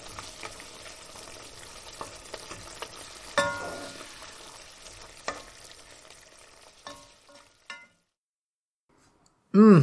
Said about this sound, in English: I scrambled them. There's a little milk in there and salt and pepper and kind of a lot of butter because that is my way.